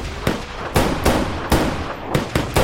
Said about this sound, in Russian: Другой мужчина стреляет в бегущего Мака.